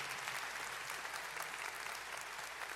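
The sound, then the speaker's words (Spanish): Audience applause for a person being thanked at an event: faint, even, continuous clapping with no clear pauses and no voices. “otro aplauso para Martín, muchas gracias”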